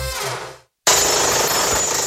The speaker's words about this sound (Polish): Młoty kujące. Wypożyczalnia.